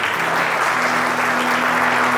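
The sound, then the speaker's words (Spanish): A church audience gives loud, sustained applause for the King during a service, a dense, even wash of many hands clapping that holds steady throughout. “¿Cuánto le pueden dar un aplauso al Rey?”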